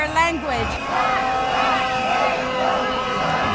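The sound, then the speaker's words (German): A crowd of young people at a peaceful protest in Georgia shouts, sings and chants, a steady loud mass of voices with held, tonal singing running through it. “Sie singen, sie rufen, sie hören Musik.”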